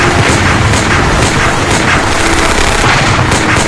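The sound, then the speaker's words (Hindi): Guns fire in a battle after an order to fire, a loud, dense barrage of rapid repeated shots and booms that runs unbroken throughout. “Fire! Fire!”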